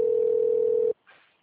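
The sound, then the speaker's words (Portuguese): A telephone ringing tone plays while a call is transferred to an agent: one steady, level-pitched tone holds for about a second, cuts off sharply, and a brief, faint click-like sound follows. “Estou transferindo sua ligação para que um de nossos atendentes possa te ajudar.”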